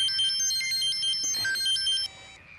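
A telephone rings with a bright electronic ringtone: a quick melody of high stepped tones that plays steadily for about two seconds, then stops abruptly, leaving a faint hush.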